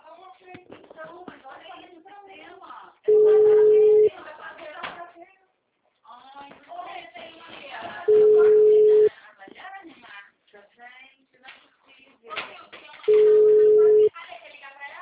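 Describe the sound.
A telephone ringing tone sounds as a call is placed: three long, steady, mid-pitched beeps, each about a second long and spaced roughly five seconds apart, with people talking before and between them.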